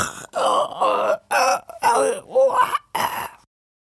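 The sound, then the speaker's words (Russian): A voice imitates an old woman wheezing as if being choked: strained, rasping groans and gasps come in a series of short voiced bursts with brief gaps between them. “Захрипела старуха, драматично изображая, будто ее кто-то душит.”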